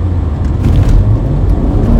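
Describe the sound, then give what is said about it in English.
A Subaru car tailgating on a road in Maine produces a steady, loud, low road rumble. Engine and tire drone continue without distinct events or breaks. “This guy decided that he just wanted to ride up on my... It's always the Subarus. How many times have I told you guys I get tailgated by a Subaru out here in Maine?”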